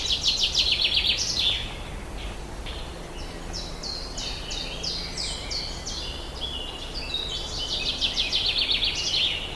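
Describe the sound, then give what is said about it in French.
Common chiffchaff song, its repeated two-note chiff-chaff phrase cut into by a common chaffinch's faster, rushing song, both high and clear over a faint steady hiss, with no voices. “En arrière-plan, nous entendons de nouveau le pouillot véloce avec son tchif-tchaf, tchif-tchaf, qui se fait couper la parole par le pinson des arbres.”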